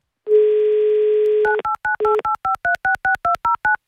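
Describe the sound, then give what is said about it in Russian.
A telephone number being dialed: a steady dial tone, then a quick, even run of many short touch-tone beeps of varying pitch. “Давайте узнаем у нее лично, наберем ее номер.”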